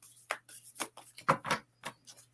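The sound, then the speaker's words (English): Oracle cards are handled as one is drawn from the deck: many quick, soft, papery flicks and taps in an uneven run, faint and alone. “Let me see. I'll pull a card for you.”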